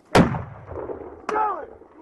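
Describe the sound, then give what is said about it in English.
Gunshots fired by police officers, picked up on a police helmet camera: two sharp, loud bangs a little over a second apart, the first heavier, each followed by a lingering rumbling decay. “Boyd then turned around and appeared to be surrendering when officers fired.”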